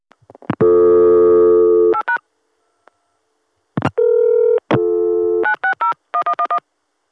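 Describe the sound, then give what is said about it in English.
Telephone tones on a crossbar exchange line as 960 is dialed on a local access number. A long steady multi-tone sounds first, then short tone pips, another sustained tone, and a run of short clipped tone bursts, loud with silent gaps. “let's dial 960 on my local access number and see how it goes through.”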